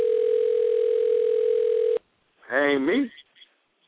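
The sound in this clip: A steady, single-pitched telephone dial tone sounds loudly for about two seconds and then cuts off abruptly. After a brief pause, a voice speaks a short phrase.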